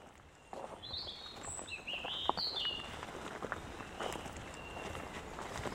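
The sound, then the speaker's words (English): Footsteps walking up through the wooded part of a cemetery on a bat walk: a steady run of many soft, crunching steps that begins after a brief quiet moment, with a few high bird chirps early on. “So I just thought we'd have a little walk up through the cemetery, through the woodland parts, and we're heading up to the top of the cemetery.”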